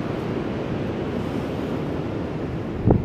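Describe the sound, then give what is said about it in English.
Ocean surf at a surfing beach with big waves as the tide comes in: a steady, broad rushing wash with some wind buffeting and a brief thump near the end. “there's a couple surfers right now going out to the beach because there's some nice big waves coming up right now. The tide's coming in.”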